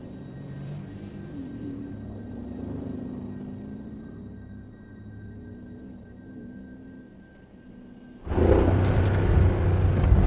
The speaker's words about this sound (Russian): Джон едет на джипе поближе.